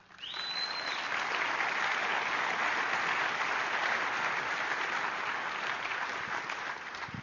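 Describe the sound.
A short whistle rises at the start as an audience breaks into applause to welcome a judge onto the stage, then sustained, dense clapping continues at an even level throughout.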